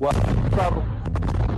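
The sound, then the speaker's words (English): Airstrike blasts in a Gaza refugee camp make a loud, deep booming rumble that rolls on almost without a break through the short clip. “more blasts are heard and he flinches”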